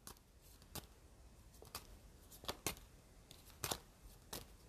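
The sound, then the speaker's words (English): Playing cards falling and scattering: a few faint, sharp slaps and clicks spread across several seconds, separated by quiet gaps. “I dropped all the cards. Well, I mean, not all of them, but most of them.”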